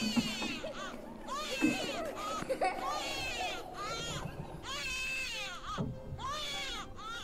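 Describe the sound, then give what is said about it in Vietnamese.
Children crying and laughing in the distance, high wavering wails that rise and fall in several repeated bursts, with short gaps between them. “Quả nhiên đúng là có tiếng trẻ con lúc cười lúc khóc văng vẳng đâu đây.”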